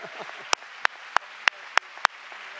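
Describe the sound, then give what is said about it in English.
Audience applause heard as six sharp, evenly spaced claps, each a crisp loud snap over a faint background. “Let's hear it for all of them. Yeah, they deserve a standing ovation.”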